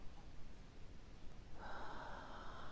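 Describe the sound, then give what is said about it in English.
A deep breath is drawn in during a guided relaxation exercise, a steady airy hiss that turns brighter and stronger in its second half, with no talk. “take a few deep breaths, breathing in”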